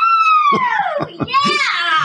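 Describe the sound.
A shrill vocal scream starts high and slides down in pitch. A few short voiced bursts follow, then another bright, strained cry. It is loud and fills most of the two seconds.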